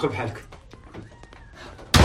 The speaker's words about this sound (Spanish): Cierran la puerta indignados.